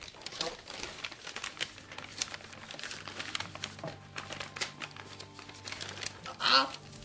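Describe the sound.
Crinkling wrapper as a package is torn open, with many quick, faint crackles and rustles running steadily throughout, and a brief louder crinkle near the end.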